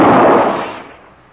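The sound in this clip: A single loud gunshot fired in a tense dramatic scene: a sharp, booming blast that decays over about a second into quiet.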